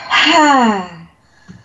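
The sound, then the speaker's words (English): A voice demonstrates breathing with one long, loud, voiced exhale, like a sigh, that falls steadily in pitch. A brief faint sound follows. “And she needs to breathe more like this.”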